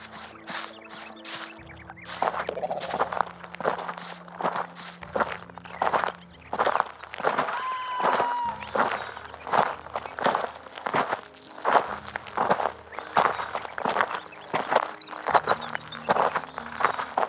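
Two people set off walking together, their footsteps forming a long run of many steady, crunching steps over a low background hum.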